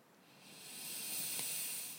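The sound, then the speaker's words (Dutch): A deep breath in through the nose during a guided breathing session, heard as a soft, airy hiss that swells gradually over two seconds. It stays faint and plays alone, without talk. “Adem bewust diep in via je neus.”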